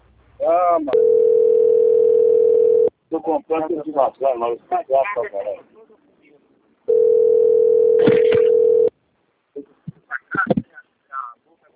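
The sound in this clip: Steady telephone line tone during a call transfer, two level, unchanging tones of about two seconds each, with people talking between and after them.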